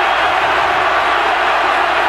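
Steady, loud crowd roar fills a college football stadium during an Arizona versus West Virginia game, holding an even level throughout with no clear breaks or individual shouts.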